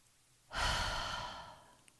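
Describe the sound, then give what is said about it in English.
A deep breath released as a soft, airy sigh during a guided relaxation exercise. One breathy swell rises quickly, then slowly fades over about a second, with nothing else heard. “And you can sigh if you like to release any kind of tension. So breathe in. One more time.”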